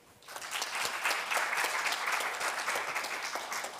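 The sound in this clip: Warm audience applause for a speaker at a laboratory talk, rising quickly after a brief quiet start into dense, even clapping that holds steady to the end.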